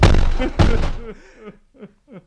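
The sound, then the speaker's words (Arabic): A door being forced and broken: two heavy, loud crashing blows about half a second apart, then a few quieter thuds under a murmuring voice. “افتح افتح. انا لابد اكسر الباب.”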